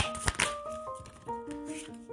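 Tarot cards are shuffled by hand during a card reading: a brief riffling burst near the start, then softer taps and rustles, with gentle sustained musical notes playing underneath.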